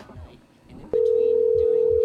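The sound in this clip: A telephone dial tone: a steady, unbroken mid-pitched tone starts abruptly about a second in and holds unchanged to the end, after a short stretch of murmured talk.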